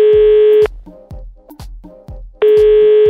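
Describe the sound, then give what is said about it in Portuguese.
Telephone tones on an outgoing call: a steady, loud beep at the start and again near the end, with rhythmic low thumps and short tones between them. “vamos ligar pro Tiago, vai.”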